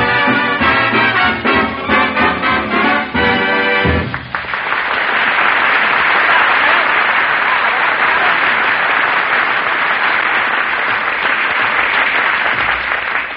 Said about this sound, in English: He even puts applause on the record.